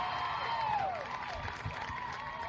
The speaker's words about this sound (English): I love our studio audience. They're quite lively.